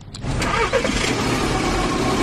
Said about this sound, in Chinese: 成都市农林科学院工程师刘季开车从成都市区赶往百余公里外的蒲江县